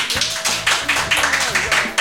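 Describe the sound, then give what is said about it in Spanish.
Audience clapping during a live show. The claps come in a quick, regular rhythm of many sharp beats, with voices calling out over them. “Podéis aplaudir otra vez si queréis.”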